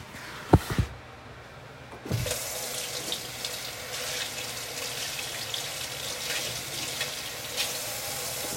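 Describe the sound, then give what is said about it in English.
A kitchen tap runs steadily as hands are washed under it at the sink while cooking. A couple of sharp clicks and knocks come first, then the water gushes in a constant, even splash with small spatters. “Let me go over here and wash my hands off.”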